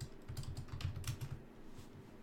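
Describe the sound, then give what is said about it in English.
Typing on a computer keyboard: many quick, light keystrokes clatter in uneven bursts with short pauses, with no voices. “type in Copra. Uh, no E.”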